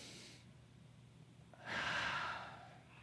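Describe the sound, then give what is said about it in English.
Breathing in through the nose and out through the mouth. A soft, airy breath is followed after a pause by a longer, louder, rushing exhale that fades away. “Would you just breathe in through your nose and out through your mouth?”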